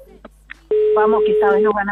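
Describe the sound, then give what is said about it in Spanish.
A phone call being placed to another person, with a long, steady ringing tone about a second long heard beneath excited voices talking over it. “Acá estamos llamando a la otra persona que va a jugar con Lucas.”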